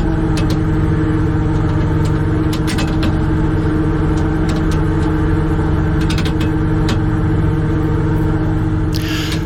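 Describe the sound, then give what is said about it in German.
Steady diesel drone of a shrimp fishing boat's engine in the Wadden Sea off Hallig Langeness while nets are put out, a loud constant hum with occasional faint clicks and clanks over it and no voices. “Wir sind schon mitten im Wattenmeer auf dem Krabbenkutter vor der Hallig Langeness und jetzt werden die Netze ausgebracht.”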